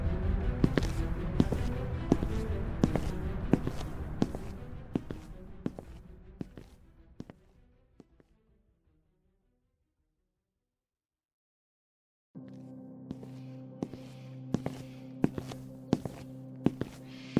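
Footsteps of someone walking along at an even pace. The steady treads fade out into several seconds of silence, then resume together with a constant low hum underneath.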